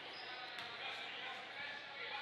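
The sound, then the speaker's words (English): A basketball is dribbled before a free throw at a high school boys game, with a couple of faint bounces under a steady wash of crowd noise. “He's got the dribble for his second. He toes the line.”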